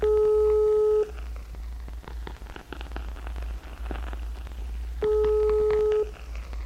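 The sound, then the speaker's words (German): Two sustained telephone tones, each about a second long and roughly four seconds apart, sound as a call is placed to a small mountain hut on the Marmolada, with faint clicks and background noise between them. “Er ruft dort an und fragt, ob die oben wissen, was los ist.”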